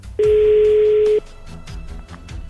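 A telephone tone on a call that goes unanswered to voicemail: a single loud, steady, mid-pitched tone holds for about a second, then drops away to a low, noisy background.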